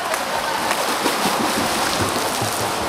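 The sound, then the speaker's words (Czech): Children kick front crawl in a swimming pool during a swim training session, producing continuous churning, splashing water noise without pause. “A začínáme kraulové nohy. Tak, jeden bazén.”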